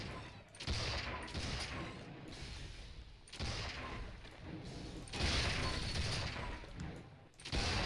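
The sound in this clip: Turret gunfire in a shooter video game, a dense, continuous roar of rapid shots with brief dips between bursts and a heavier surge in the second half.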